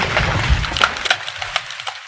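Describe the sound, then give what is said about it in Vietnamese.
Rocks tumbling down partway from a cliff face: a low rumble in the first half gives way to many sharp, dry cracking and clattering impacts, fairly loud throughout. “Đá vẫn như vậy lăn đông đốc Rơi từ giữa lưng chừng của vách núi xuống bên dưới”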